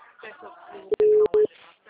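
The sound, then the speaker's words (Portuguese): A telephone busy signal sounds as a few steady, mid-pitched tone bursts with short gaps between them, following a stretch of someone talking. “Não, tá dando ocupado.”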